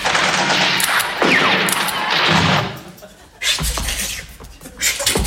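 Loud, dense gunfire volley with weapons firing at will, continuous overlapping shots and bursts that ease briefly midway, then resume with heavy thumps.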